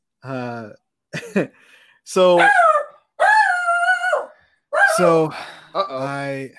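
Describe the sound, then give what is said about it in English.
A dog in an apartment barks and yowls, upset because someone is there who should not be. Loud, drawn-out, tonal cries come in several bursts with short gaps, and some are held for nearly a second. “that's my dog, by the way, people. I have a dog, and there's someone that's not supposed to be in my apartment, so he's obviously upset about it.”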